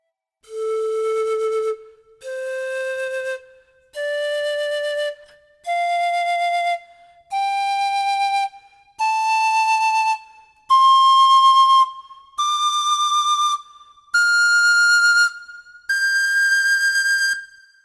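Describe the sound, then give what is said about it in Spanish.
Andean paya panpipe with small cane tubes, pentatonic and pitched in D, plays ten sweet, breathy sustained notes one after another, each a little higher than the last, rising steadily from low to high with brief gaps between them. “con tubos o canutos de carrizo de pequeñas dimensiones. Esto hace que su sonido sea dulce y agudo. Su escala es pentafónica. Escuchemos la paya en re.”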